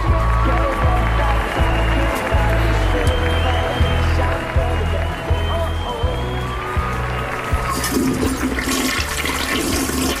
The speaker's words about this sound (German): Wir hören gerade noch mal kurz rein hier in die Toilette.